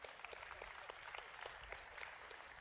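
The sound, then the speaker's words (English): Audience clapping during a faith talk to young people, a faint but continuous patter of many hands with scattered sharper claps standing out. “some of you guys are clapping”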